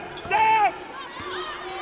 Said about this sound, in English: Says she palmed the basketball on the dribble.